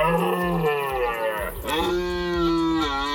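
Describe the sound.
Male deer bellowing during the rut: a few deep, harmonic, drawn-out roars follow closely one after another. Loud and rough, with the pitch shifting between calls.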